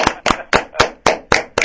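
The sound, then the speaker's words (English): Seven slow, evenly spaced hand claps ring out crisply and loudly on their own as a round of applause for a song performance. “I think that deserves a hearty round of applause, gentlemen.”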